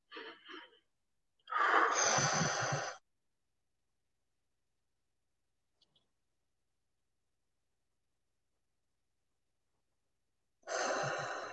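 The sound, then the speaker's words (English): A person takes deep breaths in through the nose and exhales: a short breath, then a longer breathy rush, a long silent hold, and another breath at the end. “Take 3 deep breaths for me, in through your nose. Hold it for 5 seconds and exhale all your negativity.”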